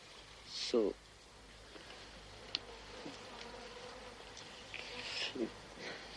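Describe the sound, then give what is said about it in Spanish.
Insects buzzing among sick people crowded into a courtyard with poor hygiene, a faint, thin buzz with a few brief louder passes and scattered soft noises in the background. “La falta de higiene y el hacinamiento atraen a los insectos que zumban entre los enfermos.”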